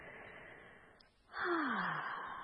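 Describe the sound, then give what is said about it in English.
A deep breath taken alone: a soft breathy draw, a brief pause, then a louder, longer rush of inhaled air with a faint falling tone that slowly eases off. “Here comes the deep breath.”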